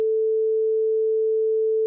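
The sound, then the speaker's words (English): Censor beep covering a swear word: one steady pure tone held for about two seconds, loud and alone, with no voice around it. “you'll only be hearing that as a beep because you're listening on the podcast”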